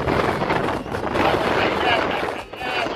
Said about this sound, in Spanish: Hoy harto viento en Los Ángeles.